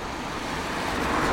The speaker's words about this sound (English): Car coming towards me.